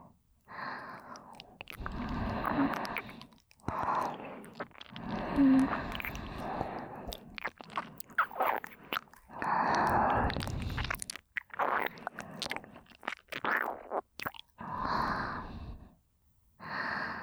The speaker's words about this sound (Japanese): 軽く耳舐めさせていただきますね。